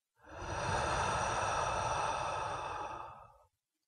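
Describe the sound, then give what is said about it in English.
A single deep breath is let out through the mouth in one long, steady, airy rush lasting about three seconds, then stops in silence. “Let's all take a breath in through the nose and out through the mouth.”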